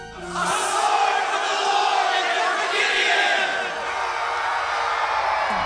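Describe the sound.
A large group of men roars a battle cry, shouting together after blowing trumpets and smashing jars while holding torches around an enemy camp. The dense, loud massed shout begins after a brief moment and holds steady to the end.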